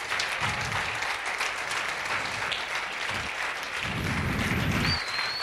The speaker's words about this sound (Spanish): Dale un aplauso a Dios.